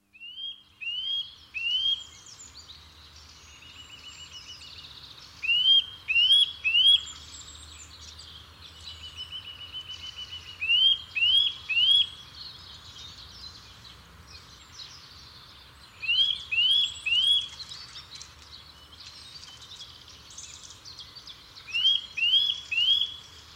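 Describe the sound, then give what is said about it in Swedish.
Eurasian nuthatch calls: bright, high, clipped notes in five quick bursts of three, evenly spaced, with faint background sound between. “andra fåglar som är också vanliga vid fågelborden under vintrarna, det är ju nötväckan. Ska vi lyssna på den?”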